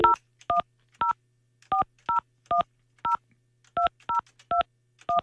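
Telephone keypad tones as a phone number is dialed, a quick, unevenly spaced series of about a dozen short, clear beeps of differing pitch pairs with no voices.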